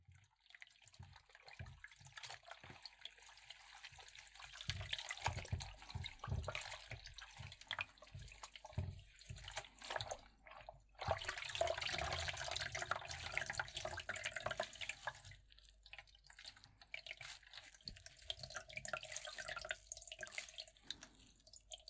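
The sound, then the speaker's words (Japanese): Clean natural water splashing in a wash basin as a face is washed, with irregular slaps, trickles and drips that continue throughout and no speech. “まずはお水で洗顔しましょう。洗面器に綺麗なお水入れてきたから、これで君のお顔を洗ってあげるね。”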